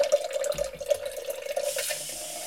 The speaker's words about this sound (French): Là, je remplis avec de l'eau pour faire ma boisson.